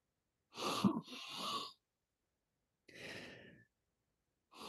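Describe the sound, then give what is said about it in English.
A person inhales deeply through the nose over Vicks VapoRub, thumbs pressed under the cheekbones. A few soft, breathy, hissing bursts are separated by silence, and the first is the longest and slightly uneven. “So two big inhales, thumbs under my cheekbones, 30 seconds, okay?”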